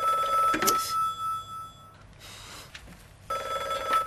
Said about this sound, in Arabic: ماما اتصال. انت هونيك وانا اللي بدي رد؟